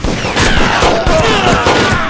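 A loud volley of gunfire in a dramatized scene, with rapid overlapping shots that blur into a continuous crackling fusillade and no break in the firing.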